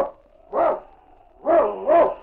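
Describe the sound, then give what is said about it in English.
Sled dog barks, the lead dog of a husky team: three short, tonal, yelping barks, one alone and then two close together, loud and clear with no talk. “It's Yukon King, swiftest and strongest lead dog of the Northwest, blazing the trail for Sergeant Preston of the Northwest Mounted Police”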